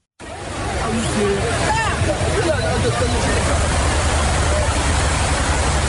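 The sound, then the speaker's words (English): Water sloshing and splashing as Haitian migrants wade in a long line across a dam structure about a foot underwater. A steady, broad rushing wash runs throughout, with a murmur of voices mixed in. “that's the sound of the people actually crossing a sort of a dam structure, about a foot underwater in a long line.”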